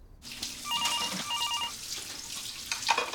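A telephone rings in two short, warbling bursts over a steady background hiss, with no voices.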